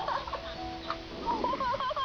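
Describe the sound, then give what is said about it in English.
Chickens cluck at a chicken coop: a few short, tonal, mid-pitched clucks and calls come one after another at a steady level, with no voices. “Whoa, that was so much fun seeing that chicken coop.”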